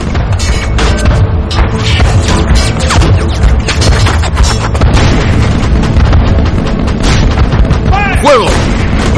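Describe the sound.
Deck cannons fire in a ship battle, a dense, loud, continuous barrage of heavy booms and crashing blasts that overlap without pause throughout.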